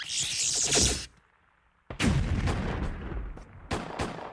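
Strafing gunfire: a loud burst of shots, a brief near-silent gap, then a longer rattling stretch of fire punctuated by several sharp, heavy cracks.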